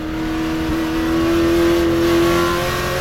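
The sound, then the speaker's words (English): A Jaguar race car's engine roars as it accelerates past a slower Austin Healey during a race. The loud, steady droning note carries a strong tonal hum and swells slightly midway. “Hawthorn decides to pass one of the slower cars before he hits the pit stop. His Jaguar flies past Lance Macklin's Austin Healey.”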